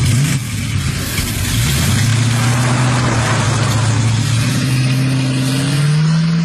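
A car driving off with its engine accelerating, a loud continuous mid-pitched drone that holds steady and then climbs in pitch near the end, with no talk over it.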